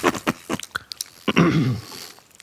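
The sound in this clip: Chewing of a jelly bean tasting of green apple and cotton candy: a few soft, moist crunching bites early on, then a brief voiced murmur and quieter mouth sounds.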